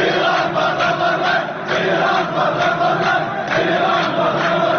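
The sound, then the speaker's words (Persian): Crowd of protesters in Iraq chanting for Iran to leave Iraq: a loud, dense mass of voices that roars on steadily throughout, with only a brief dip near the middle. “این صدای یکی از این اعتراضات است که مردم در آن خواستار بیرون رفتن ایران از عراق شدند”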